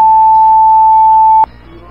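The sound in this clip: A telephone line tone sounds after a caller hangs up during a radio call-in, a single loud, steady mid-pitched beep held about one and a half seconds before cutting off to a low hum.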